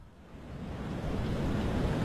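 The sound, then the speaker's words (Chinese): Ocean waves lap against a ship at night, a broad, soft wash of surf that swells gradually louder and stays steady, with no voices. “星空下，海浪拍打着青龙船”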